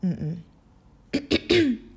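A person clears their throat in three quick raspy bursts, the last one longest, following a brief voiced sound at the start.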